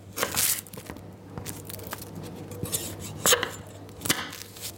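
Onions, ginger and garlic being chopped small as a cook prepares a lentil dish. Quiet, irregular knocks and crunchy cuts, with a few sharper strikes among softer ones.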